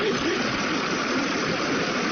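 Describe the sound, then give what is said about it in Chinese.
A car engine idles as the car arrives, giving a steady, even rumbling hum that holds the same level from start to finish. “车来了，车来了啊！ 真快，还得说汽车，说到就到了。”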